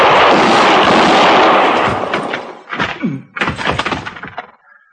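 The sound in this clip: Gunshots ring out in a gunfight with a marshal: a loud, dense burst of firing fills about two seconds, then fades, followed by a few softer scattered thuds.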